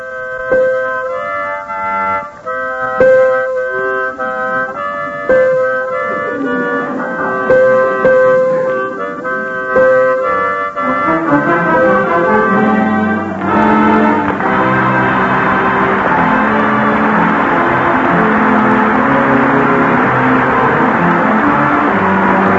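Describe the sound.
A harmonica and piano duet plays the old tune Home Sweet Home. Reedy, sustained harmonica notes carry the melody over piano chords, and the texture grows fuller and denser in the second half.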